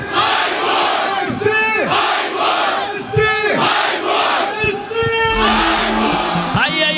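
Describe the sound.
Crowd of SC Freiburg football fans chanting and cheering at the Freiburg fairground before a cup final, a loud, continuous mass of rhythmic shouted chants and cheers from many voices.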